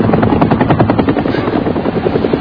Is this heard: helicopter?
yes